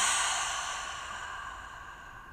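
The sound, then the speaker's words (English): A deep exhale out through the mouth during a guided self-soothing breathing exercise: a breathy, sigh-like rush of air that starts strong and slowly fades over about two seconds, with no talk. “Hold it at the top just for two. One. Exhale out through your mouth.”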